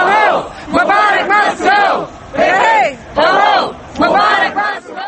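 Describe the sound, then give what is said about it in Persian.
Protesters in Egypt shout against Hosni Mubarak's regime in loud, rhythmic bursts of massed chanting, each phrase separated by a brief pause, repeating across the whole stretch. “این نوار از اعتراضهای علیه رژیم حسنی مبارک در مصر است”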